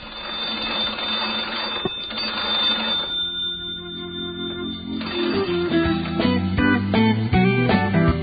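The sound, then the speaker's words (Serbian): The two oldest induction magneto telephones in Serbia ringing, a brisk, rattling mechanical bell clatter that comes in uneven bursts, with a brief lull midway before the jangling resumes more intensely. “Ovo je zvuk 2 najstarija induktorska telefona u Srbiji.”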